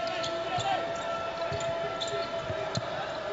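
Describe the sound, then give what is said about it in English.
A basketball is dribbled at center court during a game: a few soft thumping bounces under a steady, faint crowd murmur. “Center court dribble by Joe Slocum”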